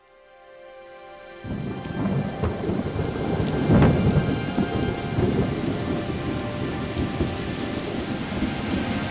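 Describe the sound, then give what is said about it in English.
Heavy rain pours on a commercial street of storefronts in northwest Baltimore, a dense, loud, steady hiss that surges after a quieter start, with a low rumble of thunder swelling midway and no voices. “I haven't seen it rain this hard in a long time.”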